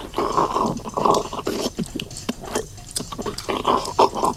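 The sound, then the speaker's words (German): Loud, wet smacking and chewing from someone eating frog legs at a dinner table. Many rapid mouth smacks and crunchy bites repeat in an irregular rhythm throughout, with no speech. “Schmatz doch nicht so”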